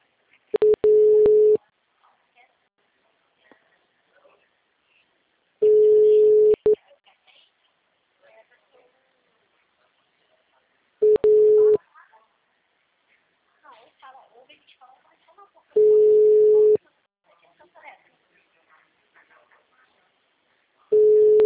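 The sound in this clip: A telephone tone on a call that is not answered: a steady single-pitched beep sounds four times in roughly one-second bursts, separated by long gaps with faint scattered noise.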